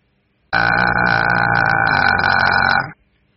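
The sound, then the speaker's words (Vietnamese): An electric doorbell rings at a door in one loud, continuous buzzing ring lasting a little over two seconds, then cuts off into silence. “Dì bấm chuông cửa như điên, chỉ nghe tiếng chuông điện vọng ra, chứ không còn âm thanh nào khác.”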